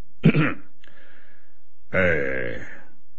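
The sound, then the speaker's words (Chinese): An official clears his throat before starting a speech: one short, sharp rasp, a pause, then a longer voiced, gravelly throat-clearing. “咁另一位大官立即还礼就表示感恩之后起身先清一下喉咙。”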